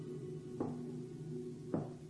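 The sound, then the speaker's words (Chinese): Two separate knocks on a dormitory room door, dull thuds spaced about a second apart over a steady low hum. “有人敲门，谁呀？”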